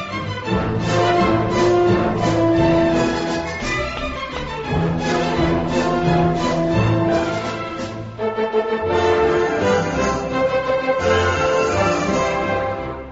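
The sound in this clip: A symphony orchestra plays an instrumental arrangement of a Spanish copla song without singing. The full ensemble sounds loud and rich, dips briefly near the middle, then swells again.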